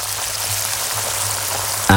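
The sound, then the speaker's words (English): A pair of 32-day matured sirloin steaks sizzling in pure Irish butter, giving a dense, steady hiss and crackle that runs without a break and ends in a brief louder burst. “This is the sound of a pair of 32-day matured, award-winning sirloin steaks cooking in pure Irish butter.”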